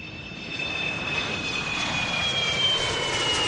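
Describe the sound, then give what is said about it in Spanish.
An airplane engine gives a steady, broad roar topped by a thin, high-pitched whine. It holds constant throughout, with no voices. “Este es el ruido del motor de un avión para hablar del misterio del OVNI de Galdar”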